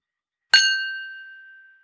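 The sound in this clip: Crystal glasses clink once in a toast: a single sharp, bright chime whose clear ringing tone lingers and slowly fades to silence.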